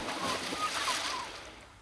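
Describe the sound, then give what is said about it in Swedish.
A splash as someone dives into water: a broad, churning burst of watery noise that holds for about a second and then fades away, with no voices. “dyker nu ner för att spana. Plums i böljan, se upp!”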